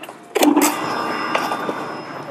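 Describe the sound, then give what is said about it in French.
A handheld concrete vibrating needle starts up with a sudden burst of mechanical noise, then settles into a steady motor drone with a faint high whine running underneath. “Donc ça, c'est une aiguille... Vibrante. Aiguille vibrante que j'ai dans la main. Ils vont la mettre en route. Je veux voir à quel point ça vibre.”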